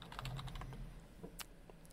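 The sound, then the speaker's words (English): Mouse clicks at a computer: a quick, irregular run of light, faint clicks and taps, with no voices. “Oops, it helps if I click in the window.”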